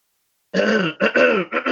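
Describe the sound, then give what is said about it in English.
Throat clearing by a person after a moment of silence, made up of three loud, rough, voiced guttural bursts in quick succession. “sorry, I have to keep clearing my throat.”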